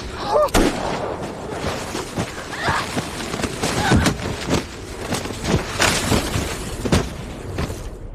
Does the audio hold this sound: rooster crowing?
no